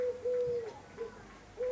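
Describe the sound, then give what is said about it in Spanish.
Pigeons cooing: a few soft, low, hooting coos with short pauses between them, heard alone without talk. “¿Lo escuchas? Putas palomas, tío.”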